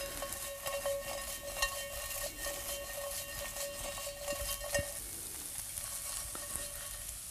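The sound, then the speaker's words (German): Tofu frying in oil in a pan while it is tossed, for braised tofu with star anise. A constant crackling sizzle is broken by a few sharp knocks, with no talking. “Okay, schwenken den Tofu.”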